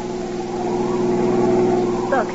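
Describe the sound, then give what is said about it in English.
A car's engine drones steadily as it drives over a muddy road up to a house, a continuous low hum that swells slightly before a brief higher rattle near the end. “Even now, he and his wife are driving over the muddy road up to the house.”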